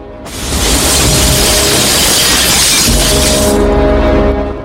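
Glass shattering as a man falls through a lower glass roof: a loud, dense crash that sustains for several seconds before cutting off.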